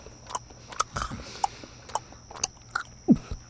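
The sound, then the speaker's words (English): Someone bites and chews freshly baked wheat bread spread with butter, making faint, scattered crunches and soft mouth clicks, several separate small bites spaced irregularly with no talk. “His wife had just baked a fresh loaf of bread made from the ground wheat, and Judah spread it with butter. While he ate it”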